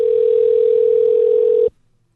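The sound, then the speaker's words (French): A telephone dial tone sounds as a call is placed, a loud, steady single pitch heard alone. It holds for under two seconds, then cuts off abruptly into silence. “Allez, petit coup de fil.”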